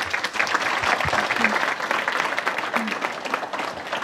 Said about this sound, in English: Please give a warm welcome to Ms. Dana Dubs.